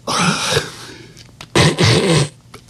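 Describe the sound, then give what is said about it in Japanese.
A man imitates the loud nasal sniffling of a stranger with a blocked, rhinitis-affected nose, giving two strong, rough snorting sniffs, each followed by fainter ones, with no talk over them. “これいびきじゃないですよ。鼻すすってんですよ。”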